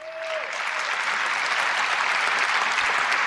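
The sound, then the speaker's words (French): An Apple Event audience applauds during the iPhone 6s presentation. Loud, dense clapping swells quickly and holds steady throughout. “le public euh, de l'Apple Event a applaudi”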